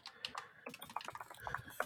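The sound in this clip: Fairly faint computer keyboard typing: many light, quick keystrokes clicking and clacking in uneven bursts.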